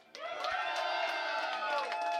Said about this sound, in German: Und ich wünsche mir einen riesen Applaus an Gunther und das Dark Metal Asylum.